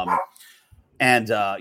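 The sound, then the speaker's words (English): A dog barks in the background, a couple of sharp, short barks separated by a brief quiet gap. “pardon my dog in the background”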